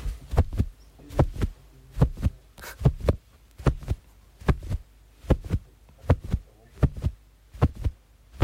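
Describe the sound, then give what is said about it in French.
Foley heartbeat made by handling a piece of jacket fabric: muffled low thumps in steady lub-dub pairs, repeating evenly throughout at a calm, regular pace. “Moi j'ai vu, hein, donc c'est un battement de cœur évidemment, et voilà. Donc c'était ta veste. Avec ma veste, un bout de tissu.”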